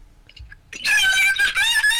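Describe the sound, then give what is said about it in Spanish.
A person lets out a loud, high-pitched, sustained scream that bursts in after a short, quiet lead-in and holds for over a second, dipping briefly midway. “¿Qué pasó? ¿Quién gritó?”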